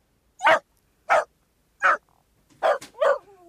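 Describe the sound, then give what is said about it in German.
Dachshund barking: five sharp, separate barks with short pauses between them, the last two coming closer together. The barks are clear and there is no talk. “Wir beginnen mit dem Dackel.”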